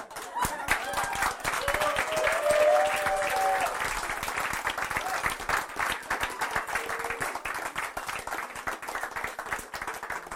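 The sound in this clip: A church audience breaks into sustained applause, a steady wash of many hands clapping for about ten seconds with only slight swells in loudness.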